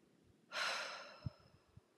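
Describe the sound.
One deep, loud breath taken during a guided calming exercise: a single long airy rush that fades gradually, heard alone, followed by a few faint soft thumps.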